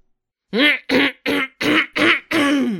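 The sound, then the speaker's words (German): Someone clears their throat because something is stuck in it: six voiced, gruff bursts in quick succession, the last one longer and drawn out. “Entschuldigung. Ich hatte was im Hals.”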